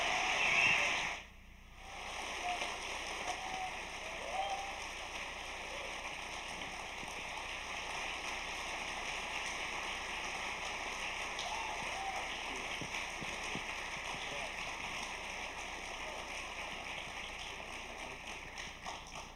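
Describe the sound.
Long, warm audience applause welcoming two guests onto the stage at a church gathering: dense, steady clapping that sustains throughout after a brief dip near the start.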